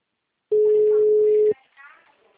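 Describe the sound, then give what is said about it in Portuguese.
A single steady telephone tone after a dropped call, holding one even pitch for about a second before cutting off abruptly, followed by faint, quieter voices. “A ligação caiu, seu Marcelo”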